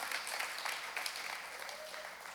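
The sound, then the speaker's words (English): A church audience claps in steady, dense applause that stays faint and even for a couple of seconds before easing off slightly. “That's a good place to clap.”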